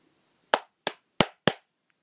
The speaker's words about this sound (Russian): Полковник отступил назад и сделал несколько хлопков,